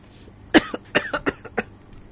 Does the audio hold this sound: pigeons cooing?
no